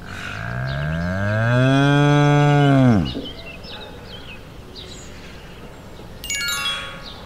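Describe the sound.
A cow gives one long, loud, low moo lasting about three seconds, its pitch swelling slightly before dropping away at the end, followed by quieter background noise.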